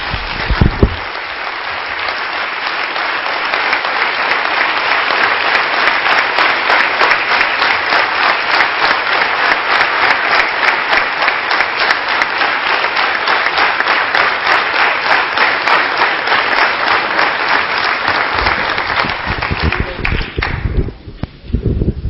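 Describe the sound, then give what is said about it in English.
An audience of medical professionals and others gives a standing ovation, with loud, dense, sustained clapping that holds steady for about twenty seconds before thinning out near the end. “Somebody said that we should give you a standing ovation. May I request all of you to give a standing ovation.”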